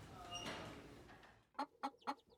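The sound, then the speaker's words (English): Chickens at a farm workplace give a few short, clipped clucks in quick succession, coming after a softer, noisier stretch at the start. “Let us go to Mutesi's workplace to get the chicken fed.”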